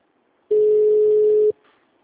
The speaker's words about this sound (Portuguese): Um momento. Chamada sendo desviada.